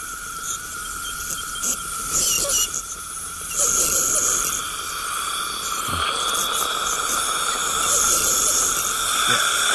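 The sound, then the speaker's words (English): A dental tool squeaks while cleaning teeth, giving a thin, high, steady whine over airy hiss, its loudness wavering in short surges with no voices. “That squeaking noise. Yeah. And that's cleaning your teeth.”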